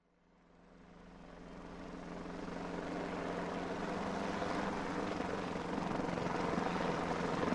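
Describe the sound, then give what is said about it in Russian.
A helicopter flies low over the treetops on hilltop ridges. Its steady, broad rotor and engine roar swells from quiet over the first few seconds, then holds loud and even to the end. “Низко, чуть ли не цепляя брюхом деревья на вершинах сопок, рассекая воздух лопастями, пролетел вертолет.”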